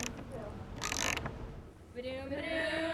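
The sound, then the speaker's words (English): A socket wrench ratchets as it snugs a washer and nut onto a carriage bolt in a wooden table frame. The clicking is steady and mechanical, with one brief, louder burst partway through. “After adding a washer and nut, we'll snug it tight with a socket wrench.”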